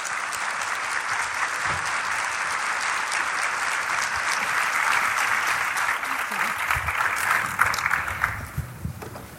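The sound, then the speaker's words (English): An audience applauds to welcome two speakers on stage, a full, sustained wash of clapping that stays strong for most of its length before thinning out and fading at the end. “So would you all please join me in giving a warm welcome to Adam Grant and Celeste Ng.”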